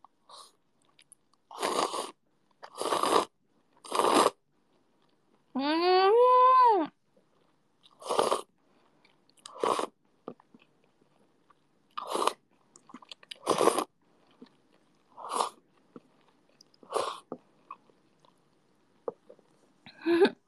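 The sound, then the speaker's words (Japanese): Ramen noodles being eaten late at night, with many short bursts of slurping and chewing separated by brief pauses, fairly loud and close, with no talking. “うまっ。深夜に食べるラーメンはこりゃまた美味しいんだ。”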